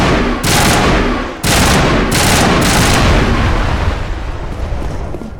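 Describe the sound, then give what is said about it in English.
Automatic gunfire in a video game as the player shoots a power junction. Several long, loud volleys are split by brief pauses, and the last burst fades out into a decaying tail. “There's a thing called a power junction. I'm gonna shoot it.”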